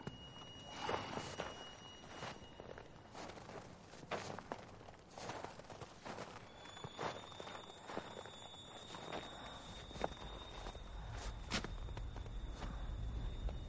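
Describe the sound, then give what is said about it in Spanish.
Faint footsteps of a man walking forward with a rifle after dismounting his horse in a frontier survival western: a loose series of soft steps, with a low rumble swelling toward the end. “Descabalga, coge el rifle y avanza caminando.”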